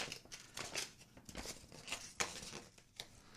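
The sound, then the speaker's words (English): Faint crinkling and tearing as someone rips open a tightly sealed package, with several short irregular bursts of crackling material. “I gotta rip open this. I think I just broke whatever was inside.”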